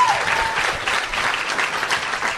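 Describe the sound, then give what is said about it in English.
Audience applause from a crowd, a dense, steady patter of clapping that holds at an even, fairly loud level for the whole stretch without a clear peak or fade. “let's have a round of applause for Patty Davis”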